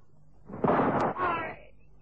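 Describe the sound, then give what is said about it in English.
A single gunshot in a radio drama as a cornered man shoots himself during a night standoff with police, a sharp bang with a booming tail that dies away within about a second. “He shot himself. Happened so quickly we couldn't do a thing.”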